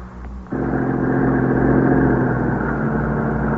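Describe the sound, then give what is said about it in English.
An arriving ambulance's engine kicks in after a moment and holds as a steady, mid-pitched rumble with a low drone underneath, continuous and moderately loud. “That's the ambulance, I guess.”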